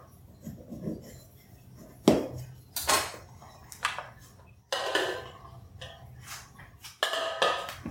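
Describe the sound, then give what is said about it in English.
A knife scrapes around the edge of a gluten-free hummingbird cake in its pan to release it. Several short, bright metallic scraping strokes come in irregular bursts, some louder than others, with faint clinks between them. “I'm going to cut around the edge. Just to release it from the pan.”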